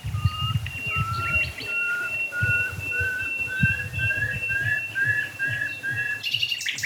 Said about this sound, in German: Vielleicht halte ich noch einmal drauf auf die toten Eichen. Ja, Nachtigall.